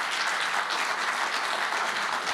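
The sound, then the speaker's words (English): An audience applauds at the close of a talk, a dense, continuous wash of many hands clapping at steady loudness with no gaps. “So I'll give you a round of applause”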